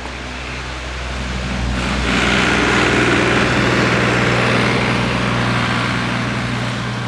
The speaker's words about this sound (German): Also, hier kommt einer mit einem Trecker angefahren. Habt ihr gehört?